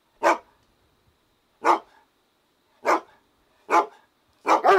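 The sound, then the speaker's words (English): A dog barking in sharp, separate barks spaced more than a second apart, each one loud and clipped, with the last barks coming closer together. “Yeah, it's a dog.”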